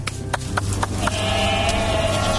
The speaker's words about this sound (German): Nachher holen wir die Geisse ab der Weide.